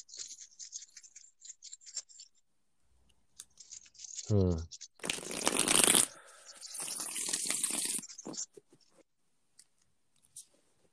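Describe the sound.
Cards are shuffled for a reading: scattered light clicks, then two longer bursts of papery riffling rustle, with quiet gaps between.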